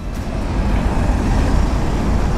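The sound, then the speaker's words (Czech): Traffic rumbles steadily as cars crawl slowly across a city bridge under repair, with a single lane open and a short queue forming. The low roadway noise is continuous and even, with no distinct passes. “Po Hlávkově mostě pomalu projíždí auta z centra do Holešovic. Na příjezdu se tvoří krátké kolony.”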